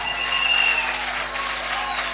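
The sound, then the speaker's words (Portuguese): Strong applause from an audience at an open class: dense, even clapping that holds at a steady level with no pause from start to end. “Uma forte salva de palmas.”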